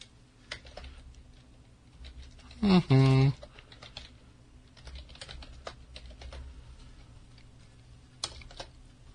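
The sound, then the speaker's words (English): Typing on a computer keyboard: scattered, irregular clicks of keystrokes come in bursts at moderate loudness, with one brief, louder clatter partway through. “Hold on, I'll type it in there.”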